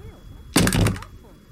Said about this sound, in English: I looked down at the gun in my blood spattered hand and relaxed my fingers, letting it fall to the floor.